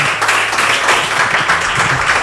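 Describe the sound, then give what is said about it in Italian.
Audience applause at a live concert: a dense, steady wash of many hands clapping, loud and sustained across the whole moment with no voices rising above it. “Un applauso. Grazie.”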